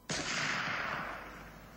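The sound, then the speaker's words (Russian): A single cannon shot from the Peter and Paul Fortress, fired regularly from the Trubetskoy Bastion to mark the time: one sudden, loud blast that rings out alone and fades slowly into a long, dull rumble. “Трубецкого бастиона регулярно бьет пушка Петропавловской крепости. Отсчитывает время.”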